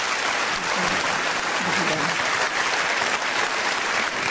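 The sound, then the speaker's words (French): Standing ovation for a former Olympic gymnastics champion at a sports awards ceremony, continuous dense applause at a steady, loud level throughout, with faint voices beneath it early on. “Et c'est une ovation debout qui lui a été réservée.”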